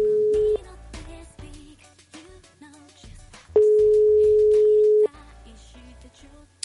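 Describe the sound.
Ringing tone of an outgoing telephone call: a short steady mid-pitched tone, then after a gap a second tone lasting about one and a half seconds. Both sound over a continuous bed of other sound.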